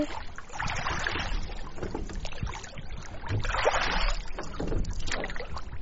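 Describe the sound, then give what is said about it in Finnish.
A boat drawing up to a pier after checking fish traps: continuous sloshing, rumbling water noise mixed with wind buffeting, swelling twice in loudness, with no voices. “Isä tuli veneellä laiturin vierelle.”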